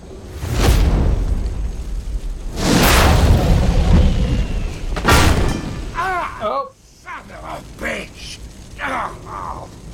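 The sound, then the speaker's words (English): Three heavy explosions boom and rumble in turn, one dropping a big steel beam, before people talk over lingering low noise. “an explosion dropped a big steel beam onto his leg, and he's pinned down”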